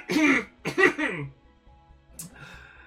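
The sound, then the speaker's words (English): A voice acts out a subtle, nervous throat clearing for a character dusting dirt off their armor: two short, rough bursts, followed by a faint, brief sound near the end. “Attempt a subtle throat clearing that comes across more than a little nervous”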